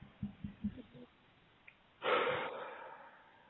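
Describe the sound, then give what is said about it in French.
Someone takes a deep breath: a few soft short vocal sounds come first, then a sudden airy rush of breath that slowly fades over more than a second. “Voilà, prends une grande inspiration.”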